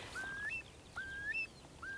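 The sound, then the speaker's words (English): A whistling bird gives a doleful, plaintive cry: three clear, fairly loud whistled notes, each sliding upward in steps, with the last cut short. Faint hiss lies underneath. “And there's seven whistling birds. Here he comes. Gosh, he's so close. Oh, here he is. Amazing. But there are seven birds with a very similar doleful, plaintive cry.”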